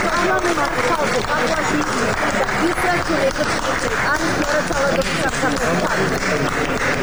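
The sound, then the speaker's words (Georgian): Audience applause breaks out for a woman, dense steady clapping that holds at an even loudness for about seven seconds, with voices mixed into the clatter. “დაუკარით ტაში”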